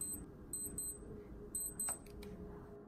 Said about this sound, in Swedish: Det piper till igen i Casio-klockan.